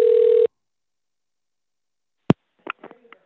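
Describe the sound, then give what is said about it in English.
Telephone dial tone heard while placing a call: a loud, steady, unbroken tone lasts about half a second and stops abruptly. Silence follows, then one sharp click and a few faint, short blips. “I know I'm calling up the church right now.”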